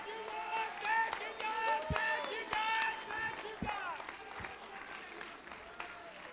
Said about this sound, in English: Somebody needs to stand up to the feet right now and give the Lord a hand clap of praise.